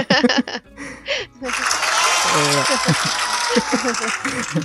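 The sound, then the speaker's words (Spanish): Applause breaks out after a brief stretch of talk and then continues as dense, steady clapping, while people keep talking over it. “¿Dónde están los aplausos? Sí, aplausos, aplausos.”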